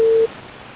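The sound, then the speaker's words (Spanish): A single steady telephone tone sounds for a quarter second during an unanswered call, then cuts off abruptly and leaves only faint line hiss. “El señor Daniel no me contesta. Tu llamada será transferida.”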